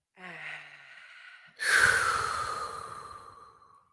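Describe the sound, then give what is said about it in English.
Deep breathing during a guided relaxation exercise: a softer, slightly voiced inhale is followed by a long, louder breathy exhale that holds for about two seconds and then slowly fades. No speech. “breathe it out. Just take a tip from the R&Rs and yeah, breathe right. it out, okay? Let's take a deep breath in.”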